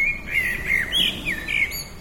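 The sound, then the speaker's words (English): Blackbird singing in a garden, several clear, high whistled phrases following one another over a soft background hiss. “if I play you now the sounds of the blackbird in my garden,”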